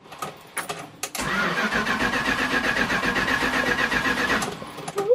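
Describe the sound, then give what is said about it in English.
Engine of a 1974 Dodge motorhome starting, then running with a loud, steady, rough drone for several seconds before it drops away; a few faint knocks come before it catches. “This is a 1974 vehicle. It takes a good 30 minutes to warm up.”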